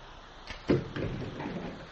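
A door is opened: a soft click followed by a louder thud, then a lingering rough, rustling noise.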